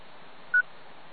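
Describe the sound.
A single short telephone keypad dialing tone gives a steady beep lasting about a tenth of a second, alone over faint hiss.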